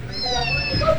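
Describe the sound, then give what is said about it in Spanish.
A kitten meows once, a clear, moderately loud cry that stretches across the whole second with a wavering tone. “¿Este gatito qué pasó? Bueno, ¿qué le pasó al gatico?”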